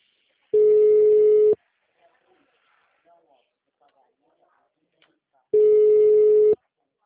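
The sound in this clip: An unanswered telephone call rings back with two steady mid-pitched one-second tones about four seconds apart, near silence between them.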